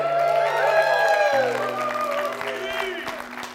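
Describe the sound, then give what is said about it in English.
A church audience applauds for its online viewers. Steady clapping runs under sustained musical tones throughout. “Can we put our hands together for our online audience today?”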